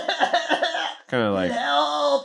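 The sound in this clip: A video game character coughs after falling to the ground: a few rough, choppy coughing bursts, then a longer strained, voiced groan-like sound, fairly loud and alone.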